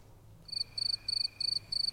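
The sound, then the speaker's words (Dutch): Crickets chirping in five short, high-pitched trills at a regular pace, each a rapid burst of pulses, faint and alone without voices. “Kan je hier krekels in monteren?”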